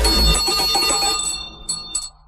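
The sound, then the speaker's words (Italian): A small bell rings with bright, sustained metallic tones over a dense wash of sound, then two short, sharp strikes ring out as the rest fades. “Sali in sella, è suonata la campanella.”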